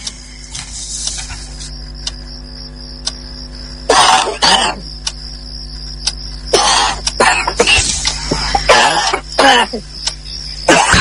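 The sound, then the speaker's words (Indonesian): Coughing from a person outside a bedroom, sounding pained: several harsh, loud bursts come in uneven clusters, some close together, separated by quieter stretches over a faint steady hum. “kudengar suara orang batuk dari arah luar kamarku. Seperti orang yang kesakitan.”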